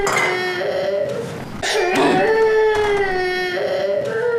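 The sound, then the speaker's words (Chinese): A baby crying loudly in sustained, high wavering wails with a brief sobbing catch midway, then the crying carries on continuously to the end. “哎呀，行了行了，你要别哭了”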